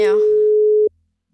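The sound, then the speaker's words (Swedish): A single steady telephone tone sounds while a phone number is being keyed in. It is a loud, even beep lasting under a second before cutting off abruptly, with a brief voice fragment at its start. “Och nu knappar jag in telefonnumret.”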